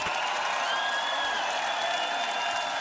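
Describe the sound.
Crowd applause and cheering at the Ušće 2024 event: a dense, even wash of clapping mixed with faint shouts, held at steady loudness throughout.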